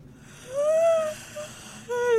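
Drawn-out vocal yawns from a person, two in a row: a long voiced, breathy one and then a shorter second, with a faint sound between them.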